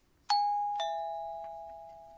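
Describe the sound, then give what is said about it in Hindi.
A two-tone electronic ding-dong chime, a higher note then a lower one, each ringing clear and bell-like with a long, slowly fading sustain. “ये घंटी की आवाज है। जापानी भाषा में इसके लिए शब्द है पिंग पोम।”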